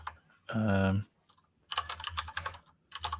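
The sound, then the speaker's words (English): Typing on a computer keyboard while someone notes something down, in two bursts of many quick, crisp key clicks separated by a short pause. “Okay, I'm writing it down. Trust me, I'm writing it down.”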